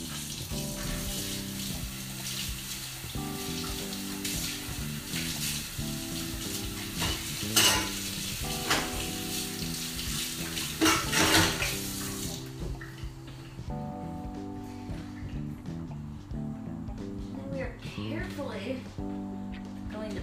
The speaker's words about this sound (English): So we're gonna have yet another little rinse.